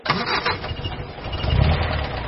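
A hospital car's engine starts and runs: a dense, rough mechanical roar that holds steady and grows a little heavier and lower near the end, with no voices.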